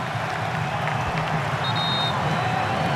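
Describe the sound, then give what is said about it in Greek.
A stadium crowd cheers during a World Cup match as Norway wins a corner against Brazil, a dense, loud, unbroken roar that holds steady for the whole stretch. “Κόρνερ για την Νορβηγία από τα δεξιά. Και ο Ντεγκαρντ ξεσηκώνει το κοινό.”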